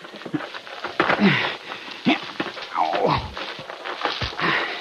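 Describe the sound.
A thrown rock landing, staged as a radio drama sound effect, comes through as a few dull thuds and knocks mixed with scuffing noises at moderate loudness.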